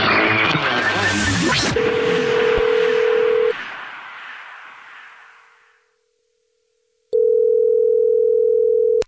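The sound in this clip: A telephone dial tone sounds as an outgoing call is placed to return a caller's text. A noisy burst comes first, then a steady mid-pitched tone that stops and fades into silence, and a louder steady tone returns near the end.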